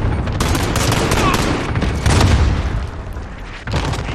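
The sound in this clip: A cluster strike bombing in a video game: dense, rolling explosions and rapid overlapping blasts form a loud, continuous barrage throughout.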